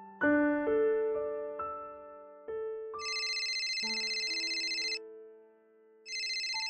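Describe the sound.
A phone ringtone from repeated incoming calls: a melody of clear electronic tones, then a bright, buzzy repeating ring that plays twice with a short pause between, steady and fairly loud.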